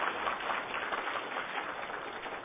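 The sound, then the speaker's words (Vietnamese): Audience applause for the teacher at a Buddhist lecture on the five aggregates: dense, sustained clapping at a steady, fairly even level throughout, with no voices over it. “Xin quý vị một tràng pháo tay cho giảng sư.”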